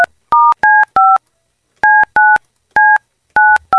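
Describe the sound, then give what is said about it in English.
Telephone keypad dialing tones: eight short, loud, clean beeps of differing pitch, keyed in uneven groups with a longer pause in the middle, each tone cut off sharply. “I got to make a phone call.”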